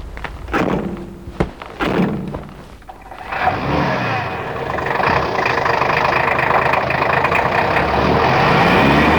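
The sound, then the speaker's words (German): A car driving off: a few heavy door thunks come first, then the engine starts and settles into a steady, loud running hum that continues to the end. “Kommt, steigt ein, wir fahren los.”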